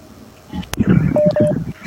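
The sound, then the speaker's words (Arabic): A phone call connects on a radio phone-in: two short, clear electronic beeps sound in quick succession under a voice talking on the line. “وأيضا عندي اتصال. ألو،”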